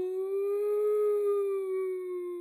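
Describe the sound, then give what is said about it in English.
A voice imitates an ambulance siren with one sustained, wailing 'ooo' tone. It is heard alone, holds steady, rises slightly in pitch and then sinks gently at the end. “That's the sound of an ambulance.”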